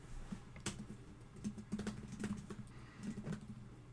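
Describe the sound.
Typing on a computer keyboard: faint, irregular clicks and taps of keys coming in small clusters, with no voices.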